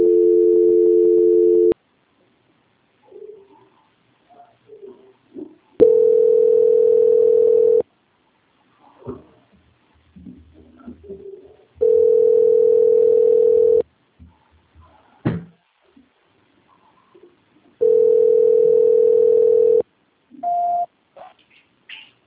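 A steady telephone line tone sounds during a call transfer, coming in four long bursts of about two seconds each. Quiet gaps with faint clicks and rustles separate the bursts.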